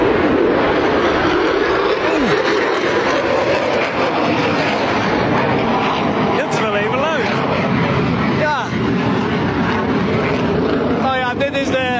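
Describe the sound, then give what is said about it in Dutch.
An F-35 fighter jet flying low over a village, producing a loud, constant roaring rumble that fills the whole stretch with little change in level. “F-35 die vliegt vlak langs het dorp.”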